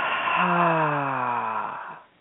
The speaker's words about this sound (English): So we'll do a couple more of these breaths and breathe down into our lower belly.